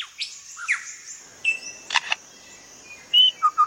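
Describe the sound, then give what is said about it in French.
A forest bird mimics a camera shutter and a motor-driven camera. It gives a series of sharp clicks and chirpy whistles, ending with three quick, rapid bursts. “Celui-ci est l'obturateur d'un appareil photo. Une fois encore. Et puis un appareil photo à moteur.”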